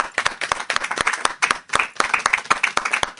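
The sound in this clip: An audience in church claps and applauds, many sharp hand claps in a loud, fairly steady, uneven rhythm that continues throughout with no clear speech.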